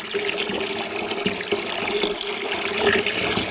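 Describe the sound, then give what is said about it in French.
Water filling a basin for a tide experiment makes a steady, moderately loud rush of flowing water with small splashy ripples throughout, with no talk. “Tiens, on va par exemple remplir une bassine d'eau.”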